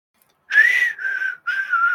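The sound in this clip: A person whistles alone, holding clear mid-high notes in two phrases. The first note rises slightly before settling, and after a brief gap a steady second note follows.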